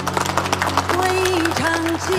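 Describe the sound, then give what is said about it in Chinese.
A group of people claps to welcome a visiting guidance team from the provincial court, with dense, rapid clapping at first and talk running through the rest. “这是咱们省院来的指导小组的同志，大家鼓掌欢迎。”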